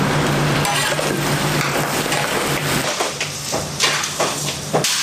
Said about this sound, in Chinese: 炒糖色居然不加热水，而是直接下肉翻炒